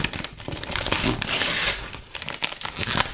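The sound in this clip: Packaging paper crinkles and tears as a wrapped cardboard shipping box is opened, a steady run of crumpling and ripping with short crackles that lasts the whole moment.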